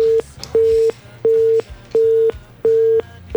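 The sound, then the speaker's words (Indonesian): Telephone busy tone after a dropped call: a steady mid-pitched beep in even on-off pulses, about five full beeps after a clipped first one, with faint low line noise in the gaps. “Terputus lagi mendengar ya. Mungkin ada trouble di jaringan.”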